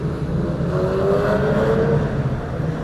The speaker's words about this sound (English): Nice Porsche driving by.